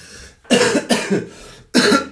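A person coughs as if choking on food while eating, with a few loud, harsh bursts of coughing separated by short pauses.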